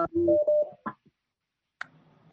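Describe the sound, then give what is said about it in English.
Electronic tones signal an incoming phone call on a conference line: a short run of steady, mid-pitched beeps, then a brief blip and a faint, quiet hum. “Oh, I think there's a phone coming in.”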